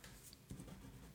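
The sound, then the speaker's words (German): Pen scratching across a sheet of paper as someone writes in large letters, soft and brief, ending with a sharper tap. “So, ich schreibe es mal ganz groß auf meinen Zettel.”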